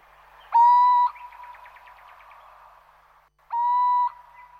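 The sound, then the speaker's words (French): Little owl hooting at night: two clear, pure-toned hoots of about half a second each, spaced a few seconds apart, with a faint quick trill between them. “Nous écoutons la chouette chevêche.”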